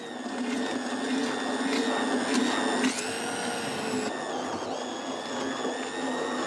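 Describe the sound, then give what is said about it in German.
Fresh fish being pureed for a fermented plant fertilizer gives a loud, steady motorized whirring drone with a whining overtone that shifts pitch once partway through and then runs on without pause. “Der Fisch lagert mehrere Wochen in der Tonne und fermentiert. Doch vorher wird er püriert.”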